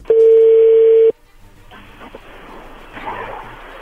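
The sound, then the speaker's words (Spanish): A telephone call being dialed: a steady, loud single-pitch line tone lasts about a second and then cuts off, leaving faint, low line noise. “ahí se está marcando”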